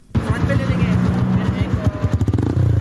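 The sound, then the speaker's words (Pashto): Motorcycle engines of a group of riding tourists putter in fast, regular low pulses, loud and continuous, under a voice speaking throughout. “دا په چار صد کې موټر سایکل سوار سیلانیان دي.”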